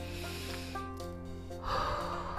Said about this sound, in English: Let's take a deep breath together. Let's just breathe.